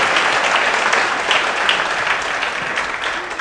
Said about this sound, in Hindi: ठीक है, पक्का ताली बजाओ सारे, वेरी गुड,